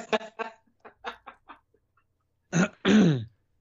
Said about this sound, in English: he cleared his throat